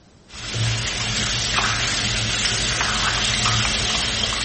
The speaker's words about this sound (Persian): این ویدیویی است که برای آموزش درست شستن دست‌ها پخش شد. آنچه بیش از همه مورد توجه بینندگانش قرار گرفت، باز بودن شیر آب و مصرف بی‌رویه آب بود.